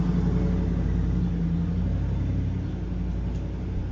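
A truck passing by with a steady, heavy engine rumble and a low droning hum that fades slightly over the few seconds.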